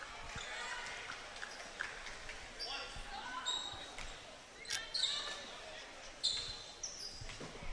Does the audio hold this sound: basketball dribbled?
yes